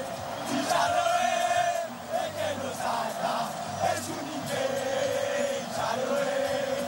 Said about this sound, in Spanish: estaban cantando todos los jugadores argentinos con la grada, con uno de los fondos donde... Buen sonido, ¿eh?